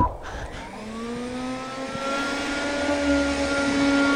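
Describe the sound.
A diesel car accelerating, its engine note climbing steadily in pitch as it pulls away, with a loud, continuous droning rumble throughout.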